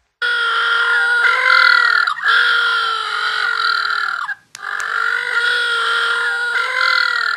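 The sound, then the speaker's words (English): Little blue penguins call in loud, harsh, braying tones with a strong harmonic buzz. The calls run in two long sustained stretches, split by a brief pause. “And if you're wondering what that sound is, that is the sound of little blue penguins.”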